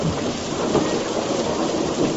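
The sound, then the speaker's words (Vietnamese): Heavy rain pours in a thunderstorm, a dense and unbroken hiss with low rumbling thunder beneath it, loud and steady throughout with no voices. “sóng to mưa lớn, gió quặn mây vần, sầm sập tuôn trào. Bao tiếng nổ lớn, vang lên liên tiếp.”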